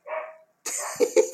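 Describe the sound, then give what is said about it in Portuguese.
An excited dog yaps in a few quick, sharp barks near the end, after a brief tonal sound. “O cachorro tá empolgado aí”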